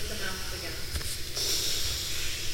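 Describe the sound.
A whisper-like exhalation through the mouth during a guided breathing exercise, a soft breathy hiss that becomes steadier and brighter in the second half.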